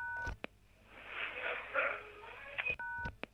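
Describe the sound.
Electronic beep of an answering machine on the Italian prime minister's office phone line: a few short tones, a faint stretch of noisy line hiss, then a steady beep signaling the start of recording; quiet overall.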